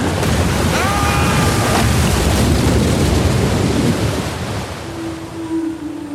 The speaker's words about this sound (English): We can't! The storm is too strong!